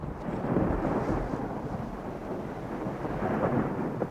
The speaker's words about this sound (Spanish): Amenaza tormenta.